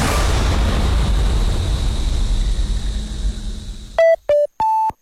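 Radio time signal beeps follow a stretch of steady hiss. Three clean electronic tones sound in quick succession: two short ones at the same pitch, then a longer final beep at a higher pitch.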